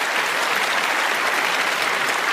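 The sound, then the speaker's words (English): An audience applauds a show's guests with dense, steady clapping that stays at an even, fairly loud level from start to finish, with no distinct voices. “Let's give a big hand to these folks.”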